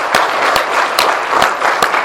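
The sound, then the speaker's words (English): Audience applause at a church service for a military family: dense, steady clapping held at an even level for the whole moment, with no voices over it. “let's just give that whole family a round of applause”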